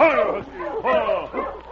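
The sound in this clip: A sled dog, the lead of a team pulling a sled along a frozen river, gives a few whining, yelping barks in rising and falling bursts, fairly loud and continuous.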